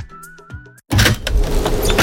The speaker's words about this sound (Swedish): Måste du öppna fönstret för att få luft?